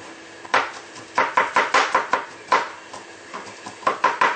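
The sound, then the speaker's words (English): A knife finely chops mushroom for a sticky rice filling, giving many sharp, irregular knocks on the board in quick bursts with short pauses between them. “Now we have here some mushroom. You chop it. It's fine.”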